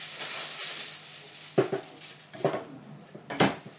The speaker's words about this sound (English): Excuse this foil noise.